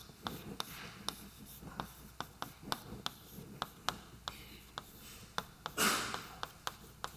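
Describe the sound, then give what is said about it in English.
Writing sounds as a basis of eigenfunctions is written out during a mathematics lecture on self-adjoint operators: many sharp taps and short strokes in an irregular rhythm, with one longer scratchy stroke near the end. “In particular, I could also write down some nice basis of eigenfunctions. And I would write down something like this.”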